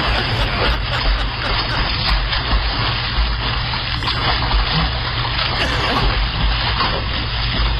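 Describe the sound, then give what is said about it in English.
Golden retrievers swim and splash in water, making a continuous, loud, churning wash of splashing noise with no clear pauses. “Man, they love to swim. Where did they all come from? They must have four Goldens.”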